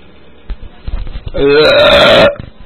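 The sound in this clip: A single long, loud, voiced burp rolls out for about a second with a steady droning pitch, preceded by faint scattered noises.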